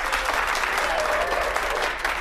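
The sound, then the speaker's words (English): Audience applause greets the contestants of a cooking game show: dense, steady clapping at full volume from start to end, with no talk over it. “And a big round of applause for today's contestants, Jack and Liz.”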